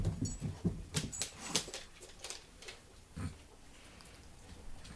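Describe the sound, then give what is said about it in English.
A dog comes cascading down a flight of stairs: a quick run of soft thumps and paw patter in the first second and a half, then quieter, scattered bumps. “In case anyone heard that and just heard me suddenly stop, my dog just came cascading down the stairs.”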